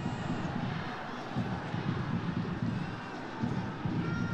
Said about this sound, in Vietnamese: trên khán đài thì uh, các cổ động viên của đội khách Indonesia Họ đang ăn mừng hát hò và tận hưởng chiến thắng của đội nhà